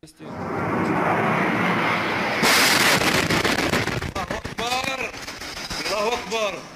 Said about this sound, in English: It's unclear who launched this airstrike, but this has been day one of a new dimension to Syria's old war.